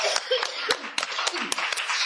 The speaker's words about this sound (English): And on the end of that, well, big round of applause for the panel.